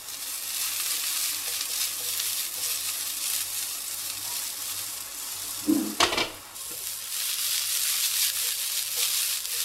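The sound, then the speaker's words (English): Mushrooms seasoned with salt and black pepper sear in a pan for a miso mushroom pasta, giving a steady, dense sizzle broken midway by a brief clatter of stirring before the hiss continues. “then you add a bit of salt and black pepper and just let it sort of sear in the pan for a bit.”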